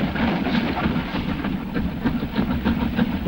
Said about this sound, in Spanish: Pasa un tren de carga.